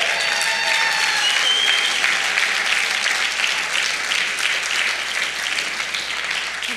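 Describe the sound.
A church audience applauds a speaker being welcomed to the stage, with dense, steady clapping that continues loudly for about seven seconds and eases slightly toward the end.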